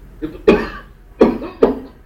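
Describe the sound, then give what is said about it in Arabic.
Several sharp, harsh coughs, given as a demonstration of the first symptom of bronchospasm. A small catch comes first, then three strong bursts at uneven intervals. “لو انا جالي برونكوسبازم دلوقتي؟ يحصل لي ايه؟ أكح بس،”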